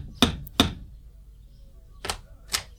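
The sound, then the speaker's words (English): Knuckles knock on the door of a big country house: four sharp raps in two pairs, the second pair after a short pause, fairly faint against a quiet background. “I'll knock on the door of the big house here”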